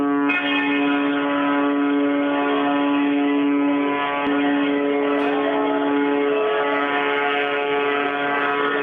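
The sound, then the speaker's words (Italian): Ship sirens and the port fire-guard sirens sound together in the harbour of Palermo, merging into one loud, sustained tone that holds a steady pitch for the full length without pause. “Quelle che sentiamo sullo sfondo sono le sirene delle navi del porto di Palermo. Sì, sono le sirene delle navi del porto e le sirene delle guardie fuochi del porto di Palermo”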